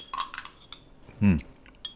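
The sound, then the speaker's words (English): A spoon taps the edges of a glass of pea soup, making a few faint, light, irregular clinks with a duller knock in the middle. “Right now, I'm taking my spoon and I'm tapping the edges of my soup glass.”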